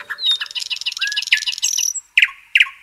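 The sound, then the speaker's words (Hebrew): Newly hatched chicks chirping: a quick, busy run of high, bright peeps, then a short pause and two separate chirps. “יצא אפרוח מהביצה. טוק טוק. הנה עוד אפרוח. הרבה אפרוחים בחצר.”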